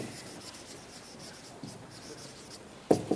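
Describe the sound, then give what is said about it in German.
Handwriting scratches along steadily in a soft, continuous rubbing rasp, ending with a sharper tap. “Ja, ich schreibe ein bisschen undeutlich, weil Sie wissen ja doch, was da steht.”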